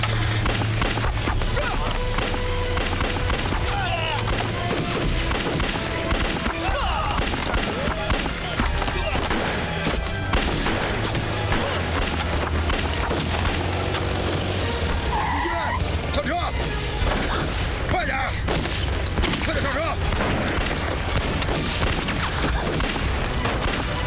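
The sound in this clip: Gunfire during a hostage-taking, heard as a dense, continuous clatter of sharp shots with people shouting throughout.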